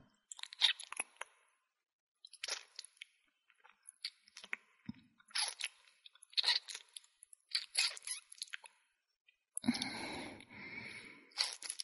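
Wet chewing and smacking mouth sounds as someone tastes, coming in short bursts separated by pauses and ending in a longer, louder crunchy stretch, with no talk.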